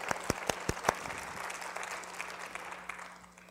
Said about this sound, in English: By the way, if I haven't already told you, thank you so much for coming to church today. It's good to see you. Why don't you give one another a hand?